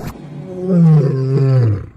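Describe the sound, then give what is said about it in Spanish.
A fierce big-cat roar, deep and loud, that swells into a growling bellow, holds, then slides lower in pitch before fading, heard alone. “ordenó lanzando un feroz rugido”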